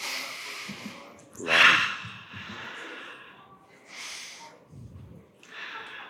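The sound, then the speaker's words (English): Deep breaths during a guided group breathing exercise: a few breathy inhales and exhales, separated by quieter gaps, with the strongest rush of air early on. “Let's take some nice big deep breaths together.”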